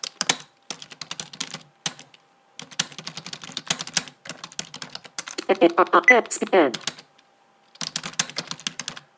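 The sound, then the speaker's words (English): Typing a message on a computer keyboard: runs of rapid keystrokes separated by short pauses, with a voice speaking briefly midway. “So, I just wrote a message about that. And I'll type another message.”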